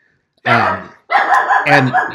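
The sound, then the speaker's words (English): A dog barks excitedly at someone walking past a condo: after a brief quiet, a few loud, harmonic barks come in quick succession, the later ones running together in a rough, growly string. “And my dog is going crazy because somebody has probably got the nerve to walk by the condo.”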